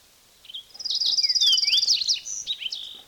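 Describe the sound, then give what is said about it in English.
Fox sparrow song: a rich, continuous run of clear, varied whistled notes and quick trills, loud and alone with no other sounds. “Nine, fox sparrow singing.”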